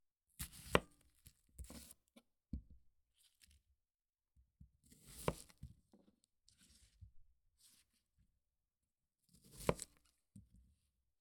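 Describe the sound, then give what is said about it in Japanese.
A sharp kitchen knife chopping an onion: quiet, crisp cuts in three short clusters, each a quick run of snaps separated by near-silent pauses. “玉ねぎを切っても全然涙が出ません。”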